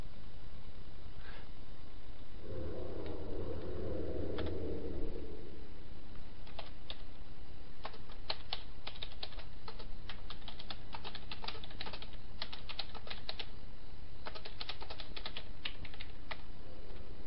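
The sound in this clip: Someone types a chat message on a computer keyboard. Many quick clicks come in irregular bursts over a steady background hum.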